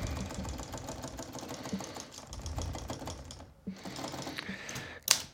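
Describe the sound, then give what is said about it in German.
Quick keystrokes on a computer keyboard as a short message is typed: a fast, fairly even patter of faint clicks, a brief pause near the end, then a last sharper tap. “der Gruß an Jörn, den will ich ja noch schnell schreiben und losschicken”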